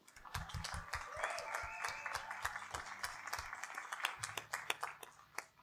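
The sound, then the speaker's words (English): Audience applause rises to greet a writer introduced at a live reading. It is a dense stretch of many overlapping hand claps at moderate loudness, with scattered sharper claps near the end. “Give Malia Collins a hand, everybody.”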